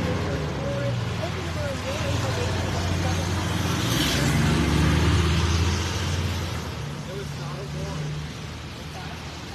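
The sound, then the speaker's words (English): Armored police vehicles drive away from a home on Highland Avenue in Warwick, Rhode Island, during a police search: a steady engine rumble that swells midway and then eases, with people talking over it. “Step on a frame so that you could see the armored vehicles leaving this home here on Highland Avenue”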